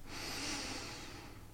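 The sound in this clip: A single slow, steady in-breath during a guided breathing exercise, soft and airy. It is sustained evenly for over a second with no talk.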